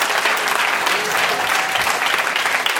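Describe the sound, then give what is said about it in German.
Loud, dense applause from a church audience, an even wash of many hands clapping that stays steady from start to finish without a break. “Let us give them a big hand. Gib denen mal einen riesen Applaus.”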